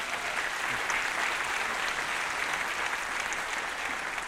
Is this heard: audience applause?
yes